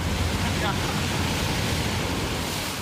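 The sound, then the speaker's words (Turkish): Waves on Lido beach in Somalia make a constant, loud wash of surf, mixed with gusty wind buffeting the microphone, with no clear break or rhythm throughout. “Somali'de en çok bilinen plajlardan birisi Lidoviç plajındayız. Özellikle bu arkamda görmüş olduğunuz sahil kesiminin açıklarında Türk donanması görev yapıyor.”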